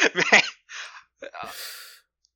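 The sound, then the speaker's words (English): A deep breath follows a moment of talk: a long, airy inhale, a brief pause, then a drawn-out, hissing exhale, all fairly soft. “Taking a deep breath and resetting myself for Mind Fang's journey.”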